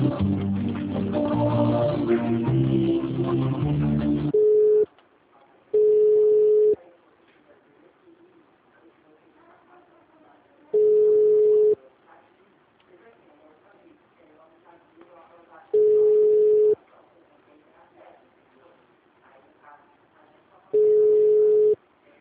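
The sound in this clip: Telephone ringback tone on a call being transferred at a municipal government office line in São Pedro: four steady, mid-pitched beeps of about one second each, spaced roughly five seconds apart, after a louder opening passage, with faint noise between.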